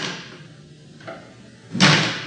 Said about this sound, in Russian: Странно, мне показалось, что дверь хлопнула.